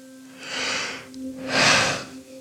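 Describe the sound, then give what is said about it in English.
A deep breath taken on cue, heard as two long, airy, hissing breaths with a short pause between them, the second fuller and louder, alone without talk. “Now take a deep breath.”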